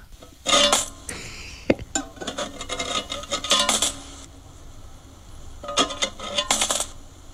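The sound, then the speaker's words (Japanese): Three 500-yen coins drop into a coin savings box, with a few bright metallic clinks and rattles spread out over several seconds, each followed by a short jingle as the coin settles. “はい、というわけで、はい、3枚入りましたね。 3枚入りましたね。 1500円分貯まりましたよ。 はい。ちょっと音がまだ軽いので、うん、20万、50万円ではまだ途中なんでしょうね。”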